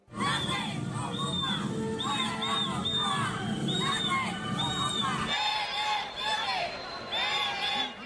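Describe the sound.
A crowd on the Paseo de la Castellana during the national day celebration shouts at Spanish Prime Minister Pedro Sánchez and demands elections. The loud, continuous jeering is pierced by many shrill, repeated whistles.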